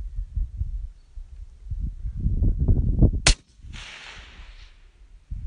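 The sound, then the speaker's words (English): Single sharp crack of a long-range rifle shot, a loud, abrupt report followed by a fading rushing tail, after several seconds of low, wind-like rumbling. “Don't chase your shot, keep your same point of aim, the rifle is doped.”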